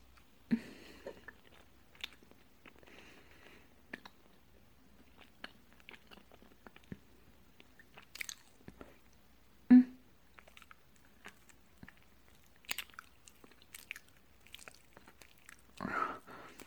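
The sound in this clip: Chewing of food being fed: faint, intermittent wet mouth sounds with soft clicks and light crunches spread sparsely through the quiet, plus one sharper bite near the middle and a brief louder burst at the end.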